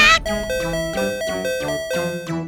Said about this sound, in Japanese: サイキックピンポンを鳴らしたくなる。